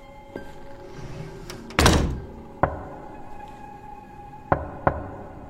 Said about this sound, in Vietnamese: tiếng gõ cửa lại tiếp tục vang lên. Anh ơi, có phải là tiếng gõ cửa đúng không?